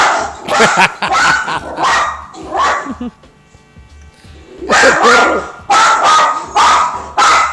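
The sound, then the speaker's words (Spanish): A person imitates a small pinscher-like dog barking: bursts of sharp, yappy barks, then a quiet pause, then another run of loud, clipped yips. “Haces ruidos de perro, porque no lo sé.”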